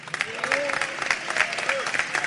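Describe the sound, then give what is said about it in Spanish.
Applause from an audience at an official swearing-in ceremony as a new government team takes office: dense, steady clapping throughout, with brief voices rising out of it. “Un aplauso entonces para el equipo que asume en el día de hoy.”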